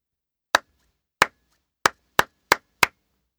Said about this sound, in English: Try clapping each of these rhythms. Then listen and check.